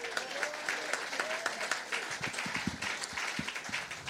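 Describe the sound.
Applause from an audience welcoming the author of a memoir onto the stage, a dense, steady wash of clapping that holds at an even level for about four seconds, with no voices over it.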